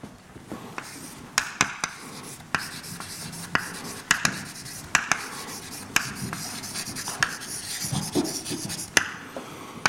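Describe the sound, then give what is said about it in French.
An equation being written by hand: a continuous scratchy rubbing of strokes punctuated by many sharp, regular taps, steady over the whole stretch with no talking. “La façon que j'aime bien, c'est d'écrire ce qu'on appelle une équation de Langevin.”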